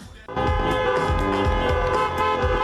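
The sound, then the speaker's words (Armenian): Car horns honk together as applause from an audience at a drive-in film festival screening, several sustained, overlapping tones blaring loudly and steadily after a brief quieter moment. “մտքովս չէր անցնի ծափահարել մեքենայի ազդանշանն օգտագործելով”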